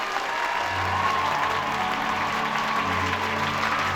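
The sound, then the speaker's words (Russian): Students rising to their feet and applauding, a dense, steady wash of many hands clapping that holds at an even loudness for the whole stretch without a break. “Сначала Рон и Гермиона, а затем и остальные студенты, поднявшись, аплодируют Хагриду.”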